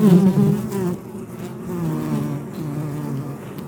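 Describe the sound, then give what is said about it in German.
Bumblebee workers buzz steadily inside their nest on a warm midsummer day. A low, continuous droning hum with gentle swells in loudness runs throughout, with no talk over it. “weil er hier heroben nur die Arbeiterinnen hat und praktisch keine Wächterinnen und keine stechenden Bienen da vertreten sind. Hören wir mal rein.”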